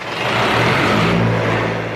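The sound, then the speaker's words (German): A diesel generator runs in a garment factory in Bangladesh, producing a loud, constant droning roar with a low humming core. The sound stays steady throughout. “Noch läuft der Generator in Hassans Fabrik, von dem die Stromversorgung abhängt. Doch der Dieselkraftstoff ist rar und teuer.”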